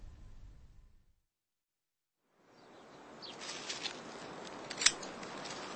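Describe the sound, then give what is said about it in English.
Garden shears cutting late roses: a soft rustle builds after a stretch of near silence, then a few crisp snips, with one sharper cut near the end. “I came out here to cut a few late roses for the drawing room.”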